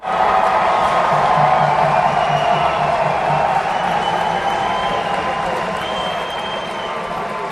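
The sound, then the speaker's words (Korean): Crowd applause and cheering at a courtroom vote in a trial: a dense, steady roar of clapping and shouting that stays loud throughout and eases slightly toward the end. “한 사람씩 표결을 할 때마다 박수와 함성이 일었다.”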